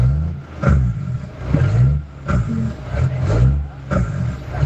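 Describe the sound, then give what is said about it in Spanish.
A truck's engine brake rumbles low and heavy, with repeated staccato surges that rise and fall over a steady growl. “¿No escuchas esos frenos de motor”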